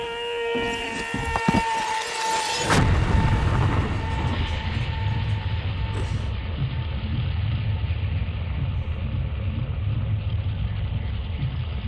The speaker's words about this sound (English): Oh my god, grenade! Grenade! Grenade!